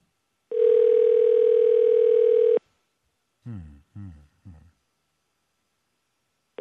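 A ringback tone sounds as an outgoing telephone call goes unanswered: a steady two-second ring, a gap holding three short low bursts, then the next ring starting at the very end.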